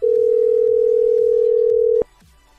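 Telephone dial tone heard before a number is dialled: a loud, steady single-pitched tone lasts about two seconds, then cuts off abruptly and leaves faint background noise.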